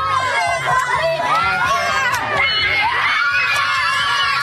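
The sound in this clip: Students in Selkirk, Manitoba cheer and shout to welcome the Premier, a dense, loud, continuous wash of high children's voices yelling and screaming together with no pauses.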